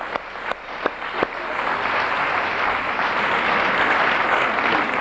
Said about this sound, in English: Anybody in that category? Yeah, give them a hand.